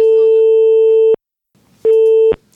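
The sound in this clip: Two steady, mid-pitched telephone ringing tones sound while a call is placed, with a silent gap between them. The second tone is shorter and ends with a sharp click, and faint background noise follows.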